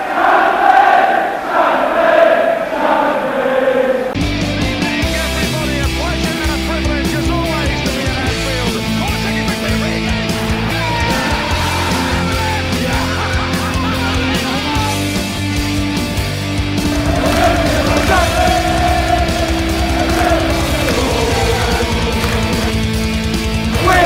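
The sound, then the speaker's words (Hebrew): The Anfield Kop crowd pays tribute to the late Bill Shankly as Mrs Shankly walks onto the pitch: a massive, sustained roar of chanting voices that swells again near the end. “And with Mrs Shankly walking onto the pitch, the cop pays tribute to the late Bill Shankly, who many people think started it all here.”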